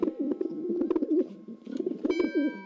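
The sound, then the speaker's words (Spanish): A dove cooing in a continuous run of soft, low, warbling coos that rise and fall in a steady rhythm, with no voices. “Pues ahí está, ahí se escucha, la paloma de la paz.”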